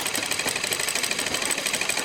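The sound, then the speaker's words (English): Sewing machine running during a sewing training session, treadle or electric: a fast, steady mechanical whir with rapid, even stitching pulses that continue without a break throughout. “These women are getting trained on two kinds of sewing machines. One is a treadle machine.”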